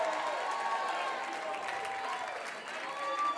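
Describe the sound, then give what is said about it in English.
A church audience in Lancaster claps and shouts in worship. The applause is a steady, soft wash with faint raised voices mixed in. “take 15 more seconds, clap your hands in Lancaster. Give God a mighty shout. Go ahead, make a joyful noise.”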